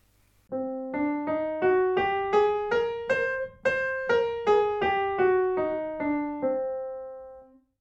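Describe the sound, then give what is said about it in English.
An instrument plays the Hungarian minor scale as a smooth run of many evenly spaced, bright sustained notes, climbing step by step and then descending back down. “the Hungarian minor scale, which sounds like this.”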